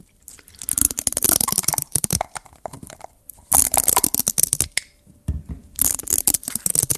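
ASMR lid sounds mixed with liquid: crisp clicking and crackly, squishy taps arrive in three dense bursts separated by quieter pauses, sharp and detailed, with no voices.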